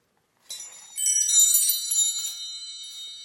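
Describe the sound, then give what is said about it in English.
Wind chimes ringing in a breeze, bright high metallic tones that strike and overlap into a shimmering, sustained ring, starting softly and then swelling louder as more chimes sound together. “a set of wind chimes. Look, Father, here is music in the wind. Just then, a playful breeze blew through the chimes,”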